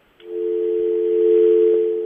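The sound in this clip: A telephone line tone sounds after a dropped call: one steady, mid-pitched hum that starts abruptly and holds level without interruption for about two seconds.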